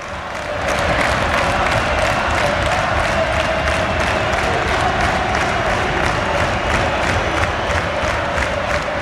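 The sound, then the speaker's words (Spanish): A football crowd at Riazor stadium roaring in a dense, loud, continuous wall of voices with faint rhythmic pulses running through it. “Al público de Riazor le da igual, escuchad, esto es ahora mismo Riazor.”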